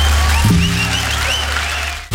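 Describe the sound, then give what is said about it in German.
A crowd cheers and applauds in a steady, dense roar of clapping with faint whoops above it, holding level before cutting off abruptly at the end. “Jubel.”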